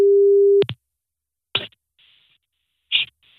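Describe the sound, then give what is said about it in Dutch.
A steady telephone line tone is heard while someone places a call during a live radio morning show. The tone cuts off with clicks, then two short, bright bursts follow, with faint tones sounding between them. “Oh, ik ga iemand bellen.”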